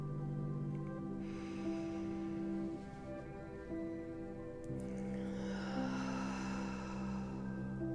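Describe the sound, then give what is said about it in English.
A big, deep breath drawn in and let out slowly, a long airy inhale followed by a long exhale, both soft and sustained beneath a steady, held musical drone. “Let's take a big, deep breath.”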